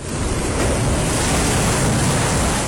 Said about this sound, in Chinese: 大海波涛汹涌，海浪恶狠狠地拍打在海边的岩石上。